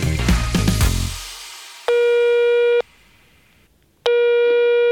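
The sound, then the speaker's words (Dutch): Telephone tone while a call is dialled: two long, steady electronic beeps separated by a silent gap. A brief burst of other sound fades out just before the first beep. “Ik ga Margreet even bellen en jullie horen van ons.”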